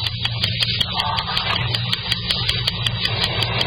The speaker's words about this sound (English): Okay, start your motor. Start pulling up.